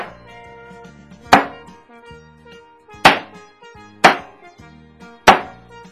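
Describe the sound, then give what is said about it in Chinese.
Sharp chopping of cleaned meat being cut into medium-small pieces: four heavy, well-spaced thunks of a blade hitting the board, each with a brief ringing decay, over soft steady background music. “那我们就是把它整理好洗干净了以后剁成中小块。”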